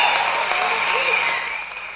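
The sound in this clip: Applause during a tribute to great boxing figures, a steady wash of clapping running under a voice and easing slightly toward the end.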